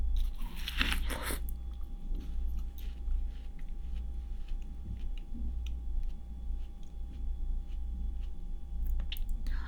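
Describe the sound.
Someone bites into summer watermelon with a loud, juicy crunch at the start. Softer wet chewing and small scattered clicks follow over a steady low hum, with no talk.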